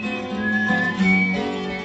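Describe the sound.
A man, a folk singer, whistles the introduction to his version of a patriotic song, a sustained melodic whistled line that holds steady at moderate loudness, with no talking over it.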